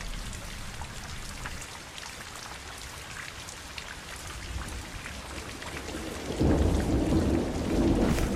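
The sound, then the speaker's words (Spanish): Heavy rain pours down on a puddled city street, making a steady, dense hiss of drops. Near the end a deep rumble rises, and the downpour swells louder through the last seconds. “Nos vamos a tener que quedar acá hasta que pare la lluvia.”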